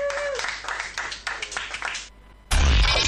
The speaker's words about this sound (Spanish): aplauso